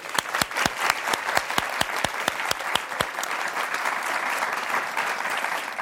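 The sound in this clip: Audience applause welcoming Meg Whitman, president and CEO of HP Enterprise: loud, dense clapping with sharp, rapid claps that holds steady for the whole stretch.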